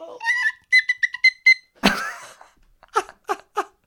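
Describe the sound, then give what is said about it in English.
A theme tune rendered in tin-whistle style: a short run of high, whistle-like melodic notes, then a brief noisy burst and a few shorter tones. “That theme is now just repeating in my head in tin whistle format.”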